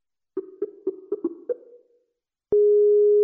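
Telephone dialing: six short, clipped tones in a quick run, then after a pause a loud steady telephone tone starts and holds unbroken.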